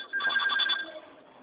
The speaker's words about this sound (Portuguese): Um minutinho que eu vou atender outra ligação.